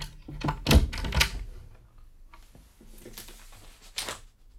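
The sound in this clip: Forcing open a locked desk drawer: a few heavy wooden knocks and clunks up front, then rattling scrapes and a final sharp clack, with no talking over it.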